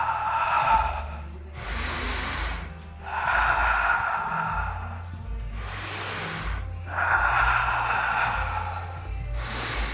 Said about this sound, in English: Take a deep inhale in. Exhale, back. Deep inhale in. Exhale, up.